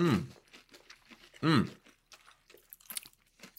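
Crunchy KFC hot and spicy fried chicken is bitten and chewed, giving a few crisp crunches and wet chewing. Two short voiced moans of pleasure stand out between the bites.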